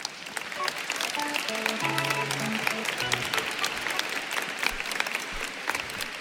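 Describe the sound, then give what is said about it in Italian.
Applause from the audience at a choir concert, a dense, steady patter of many hands clapping at an even loudness throughout, with no speech over it. “Un applauso anche a loro.”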